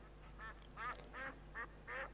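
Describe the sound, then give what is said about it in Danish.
Ducks quack in five short, nasal calls spaced at a steady rhythm, faint over a constant low hum. “Kalkunerne pludrede rundt om, og ænderne snadrede.”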